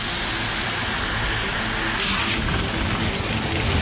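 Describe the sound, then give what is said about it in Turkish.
Heavy rain pours down in a shower that is turning to hail: a dense, steady, loud hiss of drops that runs unbroken throughout, with no voices. “Sokaklar çamur içinde kaldı. Sağanak yağış doluya döndü.”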